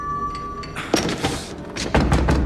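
Heavy thuds of someone hammering on a door: a few dull, uneven knocks over a low background, with the strongest blows near the end.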